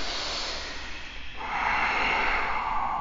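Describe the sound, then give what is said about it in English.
Forceful breathing during a yoga exercise makes a continuous rushing, airy stream of breath. Partway through it shifts into a stronger, brighter blast of air, with no talking. “Continue to breathe powerfully.”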